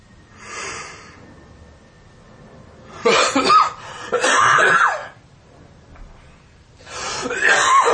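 Harsh coughing in a few loud, rough bouts, each breaking out abruptly with breathy, scratchy bursts and separated by quieter stretches.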